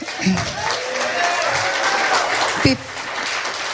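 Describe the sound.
Audience applause welcoming a singer at a show held by a council of the blind, a continuous bed of clapping with a few brief vocal sounds rising over it.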